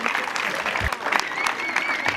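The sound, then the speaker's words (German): Audience applause at a concert evening greets three young women hosts: dense, steady clapping fills the whole stretch at moderate loudness, with a few voices mixed in. “Und Applaus für die drei jungen Damen, super!”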